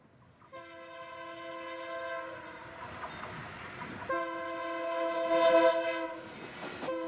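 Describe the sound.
Train horn sounding as a train departs a station: long, steady, multi-toned blasts held over a low rumble of the moving train, briefly thinning in the middle before resuming and growing louder toward the end.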